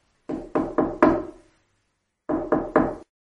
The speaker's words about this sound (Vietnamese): Có tiếng gõ cửa.